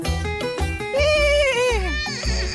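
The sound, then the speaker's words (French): A voice imitates a horse whinny as a homemade sound effect in a music jingle, a high wavering cry that dips at the end, set over a steady rhythmic beat. “C'est un mec qui a fabriqué la musique. Il trouvait pas de bruitage de cheval, il l'a fait tout seul.”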